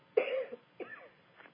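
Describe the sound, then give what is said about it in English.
Coughing fits after tea went down the wrong way: a harsh first cough, then shorter, fainter ones fading out, alone with no other sound. “Excuse me, I drank some tea right before, and that seems to have gone the wrong way.”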